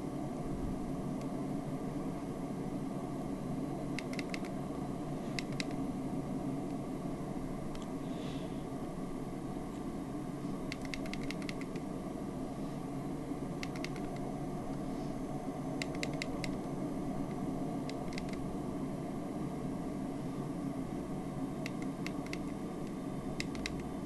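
Steady droning cockpit and engine noise of a PMDG 737-700 airliner approaching the runway in a flight simulator game, constant and even, with occasional faint clicks scattered throughout.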